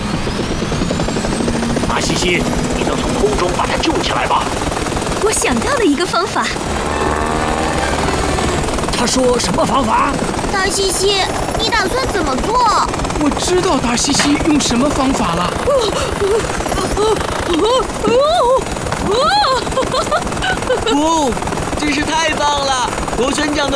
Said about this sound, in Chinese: 螺旋桨的风会把你吹到岸上的。